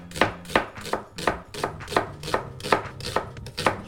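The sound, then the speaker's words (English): A knife cuts an onion into thin slices for a Thai beef curry, with about ten crisp chopping strokes in a steady, even rhythm and no talking. “Finally, our onion, we'll just make it into thin slices. So we'll split it in half first, and then we'll just go down making thin slices.”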